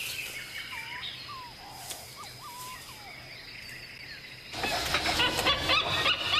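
A male bird calls from trees near a nest hollow where nestlings are fledging. A run of short whistled notes comes in quick succession before a broad rushing noise takes over toward the end.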